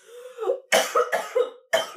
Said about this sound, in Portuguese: Nossa, eu gasguei foda agora.